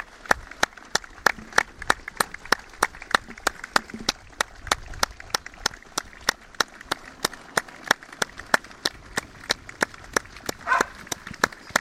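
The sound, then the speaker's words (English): Rhythmic crowd clapping at a football match: many evenly spaced sharp claps, about three per second, hold a steady beat from start to finish. “Applause, we're going to join in with that.”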